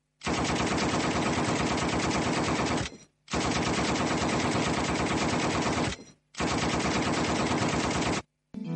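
Machine-gun fire in a fictional shooting, where gunmen dressed as Chicago police open fire in a warehouse: three long, loud, dense bursts of rapid gunfire separated by short gaps, with a fourth burst starting right at the end.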